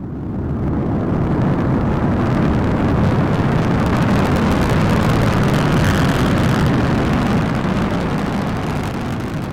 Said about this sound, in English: 10, 9, 8, so on and so forth. 3, 2, 1, blast off!